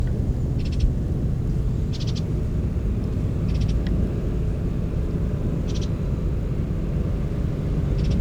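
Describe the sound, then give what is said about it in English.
Soft, high calls of a Bullock's Oriole chick come in a few short, spaced bursts over a constant low rumble. “That's one of the chicks calling”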